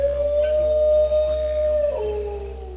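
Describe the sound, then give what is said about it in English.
A dingo howls in one long, steady, clear tone that drops lower near the end. It is loud and on its own. “from the squeaks and grunts of the koala to the barks and howls of the dingo.”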